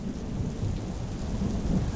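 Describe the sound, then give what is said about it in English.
Thunder rolling through a stormy night with heavy rain. A deep continuous rumble sits under a constant rain hiss and holds a fairly even loudness, with no voices. “Oh, it's terrible out here tonight, Missy responded to the stormy conditions while sitting in the back seat of Fred's vehicle.”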